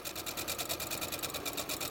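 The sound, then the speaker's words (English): A sewing machine runs continuously while stitching a patchwork quilt, a steady rapid mechanical whir and clatter with an even, pulsing rhythm, fairly faint and with no voices. “So the first is sewing a patchwork quilt.”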